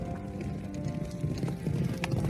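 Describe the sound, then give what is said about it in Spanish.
Hooves of a herd of wild foals trotting back to a farm with a horse, a quick, steady clip-clop of many overlapping hoofbeats. “Salió a mirar qué pasaba y se encontró que su caballo volvía a la granja acompañado de una manada de potros salvajes.”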